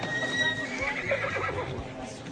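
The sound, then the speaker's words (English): A horse neighs, a seven-year-old thoroughbred mix pony, giving a high, fluttering whinny that wavers and fades over a couple of seconds against a steady background. “It's a beautiful pony. Thoroughbred mix, about 7 years old.”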